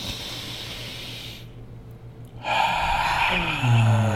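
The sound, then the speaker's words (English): A deep breath drawn in through the nose during a relaxation breathing exercise, heard as a loud rushing hiss of air that swells partway through and keeps building toward the end. “we'll do three deep breaths in through the nose and a good exhale with maybe a nice sigh on the way out. So 3, 2, 1, all the way in through the nose.”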